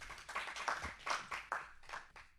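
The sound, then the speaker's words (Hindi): Audience clapping welcomes a performer onto the stage at a Hindi poetry recital, rising in a few rhythmic surges of claps that fade near the end. “करतल ध्वनि से हम स्वागत करेंगे।”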